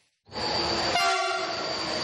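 A train arriving from Hungary sounds its horn: a loud, steady, sustained tone starts abruptly after a brief silence and holds to the end over a low rail rumble.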